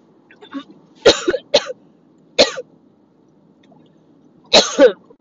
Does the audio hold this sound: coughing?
yes

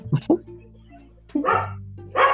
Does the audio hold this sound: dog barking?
yes

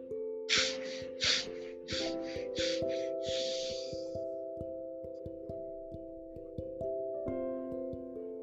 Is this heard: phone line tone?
no

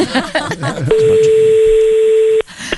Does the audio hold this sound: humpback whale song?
no

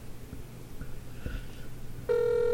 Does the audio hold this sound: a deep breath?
no

